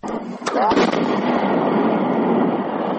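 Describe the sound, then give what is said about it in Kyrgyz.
Controlled detonation of FAB-100 aerial bombs by disposal experts, twenty found in a village: a couple of sharp blasts near the start give way to a loud, sustained rumbling roar. “Бул жарылуу кайсыл бир аскердик машыгуудагы үндөр эмес. Казанжай район аймагындагы Миңчинар айылында ФАБ 100 үлгүсүндөгү 20 авиабомба табылып, адистер зыянсыздандырып жаткан учурунан.”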